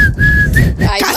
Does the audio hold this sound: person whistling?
yes